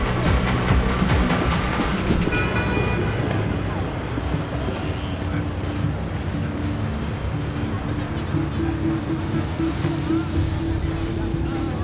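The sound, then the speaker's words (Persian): A metro train running between stations makes a continuous loud rumble and rattle with a steady tonal whine, easing slightly after the first few seconds, while a voice speaks over it. “ایستگاه بعد به تستا. درها از سمت راست باز می‌شوند.”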